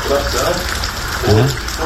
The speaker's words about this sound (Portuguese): É. Chuva, e dele água, né? Muita chuva, realmente.